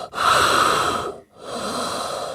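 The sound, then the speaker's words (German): A voice imitates heavy breathing through a bulky mask. Two long, rasping, hissy breaths are separated by a brief pause, loud and with no talking. “kamen dann da so reingestiefelt mit so krassen Masken. Weißt du, waren dann da so am Atmen so.”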